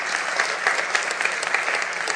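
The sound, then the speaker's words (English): A church audience applauds, a dense, steady patter of many hands clapping together throughout at a fairly even level. “Clap.”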